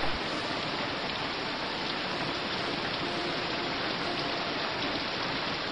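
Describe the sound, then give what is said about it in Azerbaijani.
Rain falls over a burning forest as a dense, even hiss of drops, fairly loud and unbroken from start to finish. “Bundan sonra yağış başladı. Yağan yağış yanan meşələri söndürdü.”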